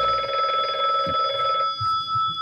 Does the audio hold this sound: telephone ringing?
yes